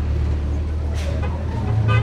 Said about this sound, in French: Le bus de 7 h du matin.